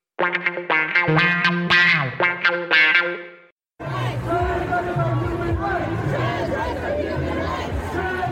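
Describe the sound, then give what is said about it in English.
Crowd noise at a counter-protest in Ottawa over how schools teach sexuality and gender identity: a distorted, processed voice, a brief silence, then a dense, loud din of many voices. “that's the sound of a counter-protest today in Ottawa.”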